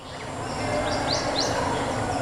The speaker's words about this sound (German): Die Vögel zwitschern, die Grillen zirpen und irgendwo in der Ferne plätschert das Wasser.